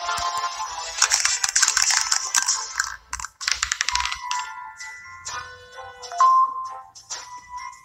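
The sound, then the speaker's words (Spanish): An electronic dice roll in a mobile game of the goose board game: a rapid rattling burst of clicks, followed by bright synthetic chiming tones and short blips. “Pulsa la pantalla para tirar nuevamente el dado.”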